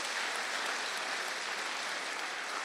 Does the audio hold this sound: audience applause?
yes